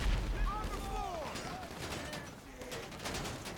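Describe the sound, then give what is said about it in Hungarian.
Gunfire in a video game as players shoot at heavily armoured enemies: many sharp shots, with the bursts packed most densely in the second half, over a steady low rumble. “Ó, rájöttem, hogy kell lőni.”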